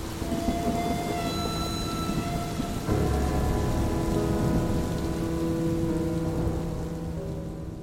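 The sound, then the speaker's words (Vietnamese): Heavy rain pours outside in a steady, loud downpour that continues without a break for the whole stretch, with a dense wash of drumming drops and no voices. “dương mắt nhìn ra bên ngoài trời mưa ầm ầm.”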